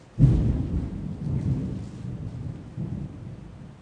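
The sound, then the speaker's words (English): Thunder breaks in suddenly after a brief hush, then rolls on as a heavy low rumble with a rain-like hiss, swelling and easing in a few waves; no voices are heard. “it can thunder loud sometimes.”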